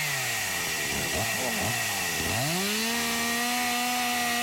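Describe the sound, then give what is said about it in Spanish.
Chainsaws cutting firewood in cold weather. A loud buzzing engine whine dips and surges as the saws rev, then settles into a steady high drone over constant rough noise. “Prendieron las motosierras, mirá eso, mirá. Salieron a cortar leña con este frío, mirá.”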